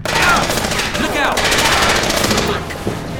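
Rapid, sustained gunfire in a fight: a loud, dense, unbroken burst of shots for about three seconds that eases slightly near the end.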